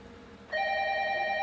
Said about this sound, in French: Tu peux répondre au téléphone.